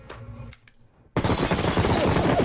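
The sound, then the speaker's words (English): Sustained gunfire riddles a hotel room with bullets. After a quieter moment, a dense, loud barrage bursts in abruptly and keeps going without a break to the end. “She riddles the hotel room with bullets.”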